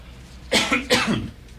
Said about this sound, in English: Excuse me, I got a cough.